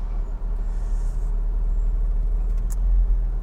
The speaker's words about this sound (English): This is the first drive of the 2001 Porsche Carrera 4.